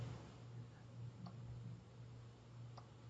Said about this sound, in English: So I click on the little plus sign, says add people this call.